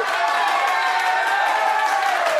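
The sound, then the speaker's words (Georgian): Applause welcomes a guest, a steady wash of clapping that carries evenly from start to finish with sustained tones beneath it. “აპლოდისმენტებით მინდა შევხვდე ამ ძვირფას ადამიანს”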